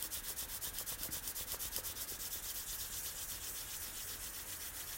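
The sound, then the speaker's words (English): Hands rubbing together in a quick, steady rhythm of many short, dry swishing strokes at an even, moderate level, with no talking. “Rub your hands and place your hands somewhere in your body.”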